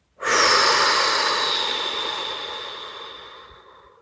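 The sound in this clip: A long, airy breath during a night-time meditation, set to cool winter air: one sustained breath sound that starts abruptly and slowly fades out over several seconds, alone without any talking.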